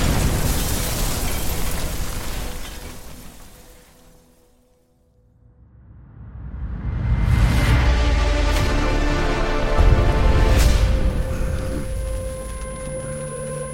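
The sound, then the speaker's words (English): The super adaptoid explodes: a loud roaring rush fades to near silence, then a massive boom swells back into a long, rumbling roar broken by a few sharp cracks. “The super adaptoid, Clint. It exploded.”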